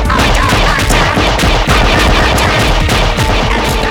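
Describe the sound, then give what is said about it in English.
Heavy gunfire as Praxis wardens attack a Dalek refuelling station in a Doctor Who audio drama: a loud, dense, continuous barrage of rapid shots with no pauses. “Praxis wardens are attacking and have breached outer wall. Open fire!”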